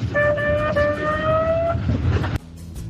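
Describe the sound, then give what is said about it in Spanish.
An ambulance siren sounds as a steady, piercing multi-tone wail held for under two seconds over a rough rumbling background, then everything cuts off abruptly. “Eso era la ambulancia.”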